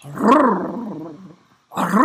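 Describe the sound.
A person's voice imitates a dog's excited growl with two throaty, rolling growls, the first longer, the second following after a short pause.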